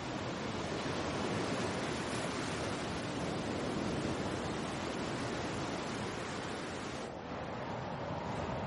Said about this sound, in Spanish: en el mar hay un gran oleaje, el hombre camina a cierta distancia del borde, pero por una zona con bastante pendiente.